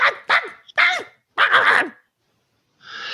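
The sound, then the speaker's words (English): Dogs barking outside, several loud, harsh barks in quick bursts, with a brief pause before one last bark. “There's some dogs outside losing their fucking minds.”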